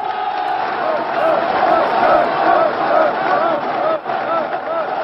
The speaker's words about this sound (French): La foule applaudit, une foule de 100 000 personnes